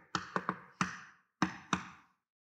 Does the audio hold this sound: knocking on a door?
yes